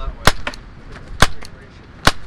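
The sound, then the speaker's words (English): A shoulder-anchored pepper spray gun, a non-lethal launcher, fired outdoors at a Coast Guard research and development center. A few sharp, loud cracks stand out against a steady background hiss, some followed closely by a fainter snap. “demonstrates a pepper spray gun outside the Coast Guard's Research and Development Center in Fort Trumbull”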